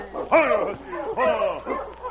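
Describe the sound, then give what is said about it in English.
A sled dog barks on a frozen river, giving a few drawn-out, whining barks and woofs over a steady low hum. “while his loose lead, the great dog King, held the dog team to a fast pace along the frozen river. Suddenly, King stopped, and the sergeant halted the team.”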